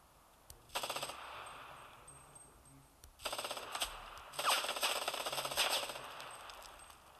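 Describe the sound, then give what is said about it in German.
Video game gunfire crackles in three separate bursts of rapid automatic shots, fairly faint, with the last burst the longest and densest. “Irgendein Team hat geschossen.”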